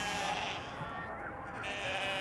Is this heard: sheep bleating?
yes